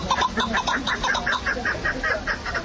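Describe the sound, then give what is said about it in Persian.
A partridge gives a long run of harsh, clucking call notes, many of them in a quick, even rhythm, clear and fairly loud with no other sound. “این صدای کبک یکی از پرنده های خوشخوان و خیلی دوست داشتنی مردمی تاجیک است.”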